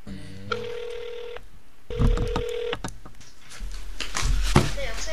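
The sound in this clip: A telephone rings as a reporter places a call to a lawyer: two long, steady electronic ring tones, each about a second, with a short gap between them, over clicks, rustling and low background noise.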